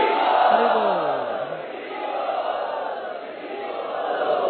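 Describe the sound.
An audience chanting loudly in gratitude after a presentation: a dense mass of many voices rises together and holds steadily for the whole stretch.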